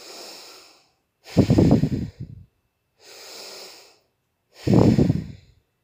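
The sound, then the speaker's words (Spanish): Slow breathing through the nose during a guided meditation: four unhurried breaths with pauses between them, softer airy ones alternating with louder, fuller ones. No talking. “Respira entonces en modo tal de sentir el aire que pasa a través de tus narices.”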